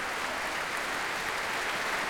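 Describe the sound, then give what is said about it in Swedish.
A standing ovation in a concert hall after an orchestra's symphony performance: dense, continuous clapping from a large audience, steady and fairly soft, with no distinct voices. “Och det är som sagt stående ovationer här i Berwaldhallen ikväll.”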